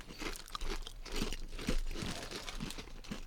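Sweet vinegar ketchup potato chips crunch between the teeth in steady, crisp bursts of chewing, heard on their own without talk and at a moderate level.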